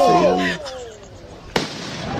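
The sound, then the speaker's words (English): A firecracker explodes in a street video after being thrown at a homeless man. Raised voices come first, then a single sharp bang followed by a rough, noisy tail. “a bunch of thugs throwing a firecracker at a homeless guy and watching it explode on top of him.”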